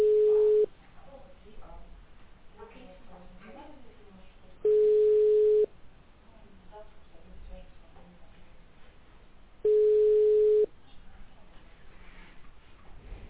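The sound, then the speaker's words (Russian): Telephone line tones sound while a call is being connected to a patient. Three steady, one-second tones are spaced about four seconds apart, with faint murmuring sounds in the gaps between them. “Ожидайте. Соединяем с пациентом.”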